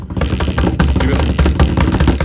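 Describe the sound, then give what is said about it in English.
A drum roll at a school event: loud, rapid, continuous beating with a dense, rattling texture that keeps up steadily for a couple of seconds. “So, drum roll.”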